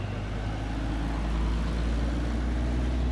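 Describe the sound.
A car drives off through a container port, giving a steady, low engine rumble with a broad, even hiss and no clear change in pitch.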